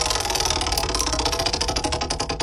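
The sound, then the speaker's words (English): A prize wheel spun in a morning radio studio gives off a fast, loud rattling run of clicks that spreads out and slows gradually toward the end. “Okay, let's spin the wheel.”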